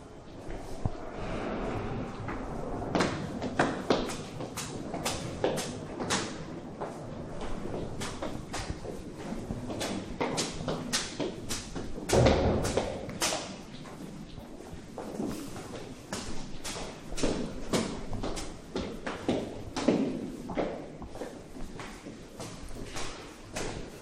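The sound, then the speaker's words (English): Many light footsteps climb a staircase inside a new development of offices and a gallery. The steps are soft, quick and fairly even, with a steady patter of overlapping treads throughout. “We're going to now walk up the staircase. What's also quite funny is while we're standing here, people are pulling concerned faces and doing very careful, trying to walk very lightly up the stairs so as not to disturb our recording.”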